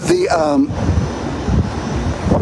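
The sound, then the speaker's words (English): Wind blowing outdoors buffets the microphone with a loud, low, rumbling roar that pulses in gusts, following a brief voice at the start. “the wind's getting mad. All right, wind, settle down. Give me five more minutes. Give me five more, wind. Settle. Peace, be still.”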